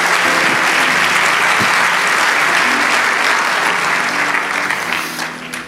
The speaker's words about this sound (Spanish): Vamos, dale ese aplauso al Señor.